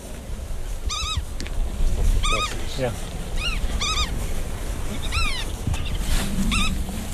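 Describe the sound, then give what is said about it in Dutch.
Black-tailed godwit calls sound close to the microphone in a breeding area, a series of sharp, clear, repeated nasal call phrases in short bursts over a steady low rumble. “Dat is onze nationale vogel, de grutto, hè?”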